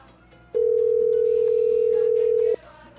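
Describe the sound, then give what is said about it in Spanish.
A steady telephone tone sounds as a call is placed to a radio listener live on air. It holds a single even pitch for about two seconds and then cuts off, with faint music underneath. “Vamos a marcar un oyente completamente en vivo.”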